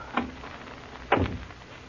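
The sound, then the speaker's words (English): A door being closed: first a light bump, then a fuller and louder thud a second later. Both are brief and stand alone against a quiet background. “Better close the door.”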